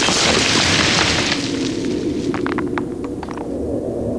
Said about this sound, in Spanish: El tanque dispara. La primera casa vuela por los aires y el capitán Miller es arrastrado por la onda expansiva.